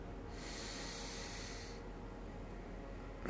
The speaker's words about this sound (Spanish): Vuelve a inhalar.